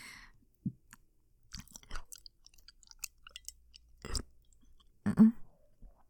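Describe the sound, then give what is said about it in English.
Wet licking and tasting sounds, scattered faint smacks and clicks separated by short pauses, with a louder cluster of mouth noises near the end. “You want me to tell you how it tastes? Let me get another lick.”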